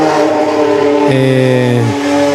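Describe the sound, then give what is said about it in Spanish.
A train passing beside the railway tracks sounds a loud, sustained, harmonic horn that drops sharply in pitch as it goes by, then drops again as it moves away. “¿Era un tren o qué? Simón, estamos acá a un lado de las vías del tren.”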